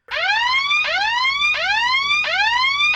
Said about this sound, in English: the alarm was deafening to my hawk hearing. The sound screamed up from the hole in the ground.